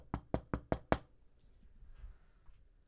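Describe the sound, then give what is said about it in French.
Five firm knocks on a door in a quick, even rhythm, then near silence with only faint low background noise. “Là, j'ai barré les portes, fermé les fenêtres, mais les cigognes, aujourd'hui, en 2016, sont intelligentes. Ils frappent.”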